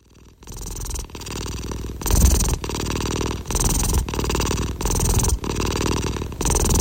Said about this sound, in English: The cat is actually still with me and would like to grace you with some more purrs